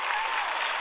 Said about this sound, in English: All right, that's a sound of applause because Dan Pink never hits up against his deadline.